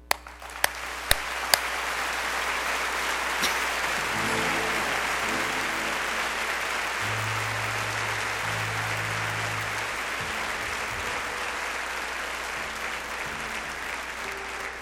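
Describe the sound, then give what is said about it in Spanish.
Sustained, dense audience applause at a love-themed concert fills the whole recording, opening with a few sharp individual claps before settling into a steady, loud roar of clapping, with soft low sustained musical tones faintly underneath. “Dale un aplauso al amor, fuerte, que se escuche, que se sienta.”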